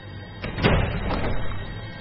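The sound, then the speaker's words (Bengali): A heavy wooden door of a windowless brick storeroom swings open, giving a few dull thuds over a low, continuous rumbling scrape. “হঠাৎ দরজা খোলার শব্দ হতেই কুমুদ চমকে উঠল।”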